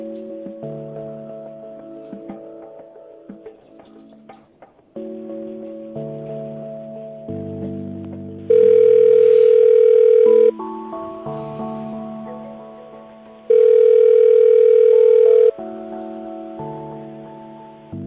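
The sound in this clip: Two long, steady telephone ringing tones sound while a call is being transferred. They stand out loud over quieter hold music with a chord-like melody, and the tones are separated by a few seconds of the music.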